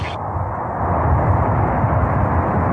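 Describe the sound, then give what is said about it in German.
Soyuz rocket engines roar at the liftoff of the Progress MS-34 cargo ship from Baikonur, a loud, continuous deep rumble that swells slightly and stays unbroken throughout. “Engines up to full turbo speed. And liftoff. Das Transportraumschiff Progress MS-34 startete vom kasachisch-russischen Weltraumbahnhof Baikonur aus.”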